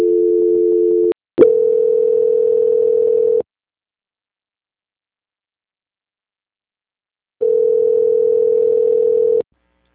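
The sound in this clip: Telephone tones during a call transfer: a steady two-pitched tone, a brief break, then a longer single steady tone. After several seconds of silence, another steady tone of about two seconds follows, with no voices.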